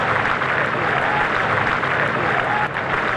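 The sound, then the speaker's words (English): A crowd applauds and cheers Andy Burnham, the new Prime Minister, as he arrives at Downing Street: a dense, continuous roar of clapping and cheering that stays loud and even throughout. “After a short ride to Downing Street, he was greeted with a hero's welcome.”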